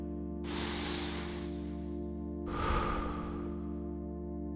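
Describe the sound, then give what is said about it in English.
During a guided breathing exercise, a deep breath is drawn in through the nose and let out slowly through the mouth, giving two soft airy rushes over a steady low hum. “Take a nice, filling breath in. Breathe deeply in through your nose and breathe out slowly through your mouth.”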